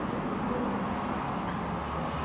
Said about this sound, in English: That's the 54 just left there. Now I'm sitting at the bus stop.